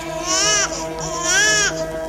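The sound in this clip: An infant cries in pain from teething: two loud, high-pitched wailing bursts separated by a brief pause.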